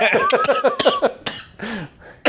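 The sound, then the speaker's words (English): Repeated harsh coughing, a rapid run of many coughs in quick succession followed by a few slower, raspier ones. “I usually end up coughing after we do Magic Mike.”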